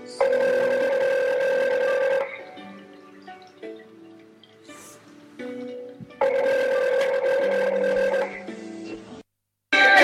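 A telephone rings for an incoming call in two long, loud electronic bursts separated by a quieter stretch.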